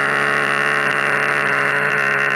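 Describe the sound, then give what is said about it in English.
A gas-powered leaf blower runs with a loud, steady, high-pitched engine whine and drone that holds constant with no change in pitch. “Fucking gas-powered leaf blowers. Yeah? Yeah, fuck. They're so annoying. Okay. That's what they sound like.”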